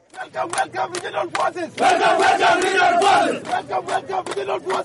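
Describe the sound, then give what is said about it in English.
A crowd of displaced people in a Juba camp chanting a welcome in unison, rhythmic shouted phrases that swell into a sustained loud collective cry midway before returning to clipped, repeated chanting. “Hundreds of IDPs chanted, "Welcome, welcome, regional protection forces," when members of the United Nations Security Council visited their camp in Juba on Saturday.”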